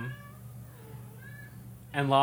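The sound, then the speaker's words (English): A cat meows while carrying a fish in her mouth: one loud, drawn-out, harmonically rich meow near the end, after a quieter stretch of low background hum. “If you can hear some meowing, listeners, there's a cat who wants to let us know she has what a cat? Fish in her mouth.”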